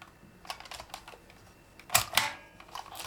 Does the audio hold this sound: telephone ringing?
no